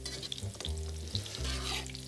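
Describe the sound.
Cooked food being roughly mashed in a pot with a hand masher, left chunky rather than pureed: faint, soft squelching and stirring sounds repeat unevenly, with no talk.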